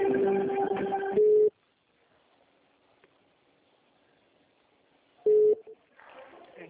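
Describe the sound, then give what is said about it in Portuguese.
Telephone line sounds as a call is transferred: tonal hold audio ending in a steady beep, then several seconds of near silence, then a second short beep. A voice starts speaking at the end. “Um momento. Tá bom. Transferindo a sua ligação.”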